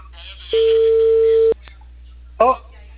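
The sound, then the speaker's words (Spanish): An outgoing telephone call gives a ringback tone: a single steady, mid-pitched beep lasting about a second, then a pause and a brief voice. “Ya, acá le estoy timbrando. Le estoy llamando.”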